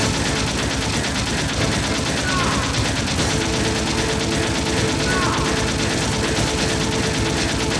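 Rapid video game gunfire as a player shoots an enemy: a dense, continuous burst of loud, sharp shots that runs steadily through the whole clip without pause.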